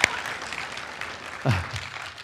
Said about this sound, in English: Praise God. Applause to God.